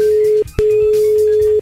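Ringback tone of an outgoing phone call to a pastry chef: a steady single-pitched tone that breaks off briefly, then resumes and holds for about a second.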